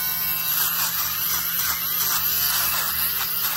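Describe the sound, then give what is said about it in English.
Steady electric buzz of a fabric shaver removing pills and pet hair from fabric, running continuously throughout at an even level, with faint wavering tones over the motor drone. “which as you can see, if you get up really close, definitely is a bit pilly. There's also some pet hair on this. Always difficult. Maybe we can shave off a few of these. Let's give it a try.”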